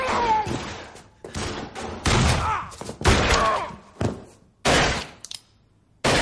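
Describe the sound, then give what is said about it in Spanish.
Gunfire inside a church, with shots fired from the altar. Several loud, sharp blasts come in uneven bursts, separated by brief gaps. “Talbot y Rams disparan desde el altar”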